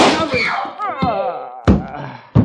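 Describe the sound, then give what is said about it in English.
Two sharp, loud gunshots from a .38 pistol ring out after a voice speaks, spaced under a second apart. “So you found a gun. Well, here's another one, a .38.”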